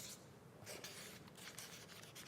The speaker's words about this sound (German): Ich schreibe noch den dritten Punkt auf.